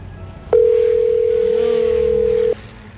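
A telephone call goes unanswered: one steady, mid-pitched ringback tone sounds for about two seconds, loud and even, then cuts off over faint background noise.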